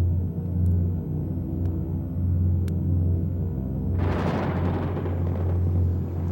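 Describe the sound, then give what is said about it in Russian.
Thunder from the first spring thunderstorm of the year: a low, steady rumble breaks into a louder crashing peal partway through, which then trails off into a fading roll. “доносится раскат грома.”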